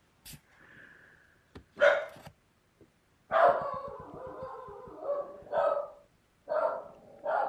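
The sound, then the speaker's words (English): A dog barking in another room: several yipping barks mixed with whining, howl-like sounds in irregular bursts, fairly faint, separated by short quiet gaps. “you can probably hear my dog barking in the other room”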